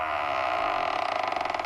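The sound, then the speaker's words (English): A heavy vault door creaks open in one long, groaning creak that turns into a fast, pulsing rattle near the end, heard alone. “Time for another Dan Marcus Wax Museum nugget, so we open the vault door.”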